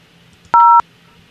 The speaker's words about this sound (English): Or dial zero to remain on hold for the next available representative.